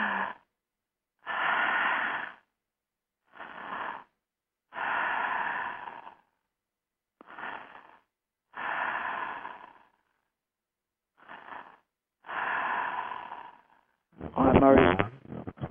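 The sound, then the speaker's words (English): Deep breathing in through the open mouth during a guided belly-breathing exercise: a series of slow, breathy inhalations, each separated by a short silent pause, with no talking. “so you're breathing in like we did at the beginning, you're breathing in and your belly goes out.”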